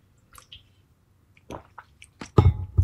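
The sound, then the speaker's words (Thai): A man sipping and swallowing water: a few soft wet slurps at first, then louder squishy gulps bunched near the end, with no talk. “เดี๋ยวขอดื่มน้ำหน่อยนะครับ”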